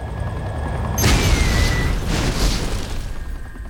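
Rocket explosion in a video game, a loud boom that hits suddenly after a low rumbling bed, then rolls on with a broad rushing roar before slowly easing off.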